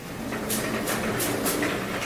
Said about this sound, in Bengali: কিছুক্ষণ পরে বিকট একটা শব্দ করে খুলে গেল লিফটের দরজা।